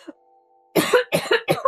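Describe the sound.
Coughing from someone who has just smoked a strong herb: three harsh, rasping coughs in quick succession, loud and alone, after a brief faint sound at the start.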